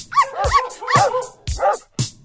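A dog barks and yips in a few short, loud bursts with a slightly whimpering, tonal edge, separated by brief gaps.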